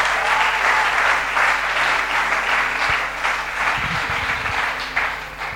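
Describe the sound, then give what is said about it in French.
An audience applauds to acclaim God at a Christian retreat. The clapping is dense and sustained and holds an even loudness from start to finish. “Est-ce qu'on peut acclamer Dieu pour sa vie”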